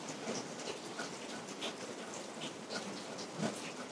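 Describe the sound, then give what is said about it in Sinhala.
Steady rain falling all morning at a temple: faint, continuous hiss of drops with no pauses, soft and even in loudness. “උදේ හිට එක දිගටම වහිනවා ඉවරයක් නැතුව”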